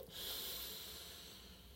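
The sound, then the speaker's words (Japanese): Breathing during a guided relaxation exercise: a long, steady, soft hiss of breath that runs unbroken for nearly two seconds, with no voices. “リラックス感感じてください最後吐き切るまた笑顔で吸って”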